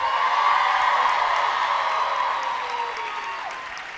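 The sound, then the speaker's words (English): Audience applause welcoming panel guests to the stage at a BroadwayCon 2020 Beetlejuice event: a steady, dense wash of clapping and crowd noise that gradually fades toward the end. “So please help me welcome everyone to the stage so we can get this going.”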